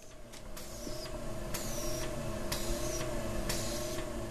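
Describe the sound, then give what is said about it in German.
Laboratory pump in a cell lab pushing fluid continuously through long tubes: a steady mechanical hum with a regular swishing pulse recurring roughly once a second. “Im Zelllabor des Karolinska-Instituts überprüft Philipp Jungeblut den Druck einer Pumpe, die kontinuierlich eine Flüssigkeit durch lange Schläuche fließen lässt.”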